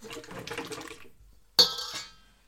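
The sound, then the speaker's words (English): Stirring in a metal bowl set over a double boiler: about a second of busy scraping and clattering of a utensil against metal, a short pause, then one sharp metallic clink that rings briefly and fades. “I'm using a metal thing, bowl. I prefer using metal when I'm doing a double boiler.”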